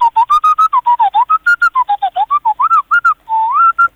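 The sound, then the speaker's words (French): A person whistling an imitation of a robot's beeps: a long, loud run of rapid short notes bending up and down in pitch, then a longer warbling note and a few closing chirps, with no talk. “Je suis capable de vous faire une imitation d'R2D2 pour finir là-dessus.”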